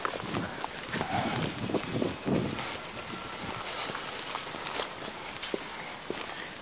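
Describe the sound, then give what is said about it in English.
Footsteps cross wet grass in a steady run of many soft, faint, squelching steps amid constant low rustling noise. “Let's just walk up there. I mean, they might look at us funny. But, okay, we'll go across the grass and see the hole. That's nice and wet.”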